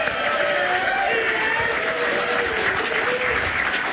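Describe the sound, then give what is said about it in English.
A crowd applauds and cheers for a band at Windmill Lane Recording Studios in Dublin. The clapping is dense and continuous, with cheering mixed in, and it stays at an even, loud level for the whole stretch. “Yeah, big hand for the band. Yay.”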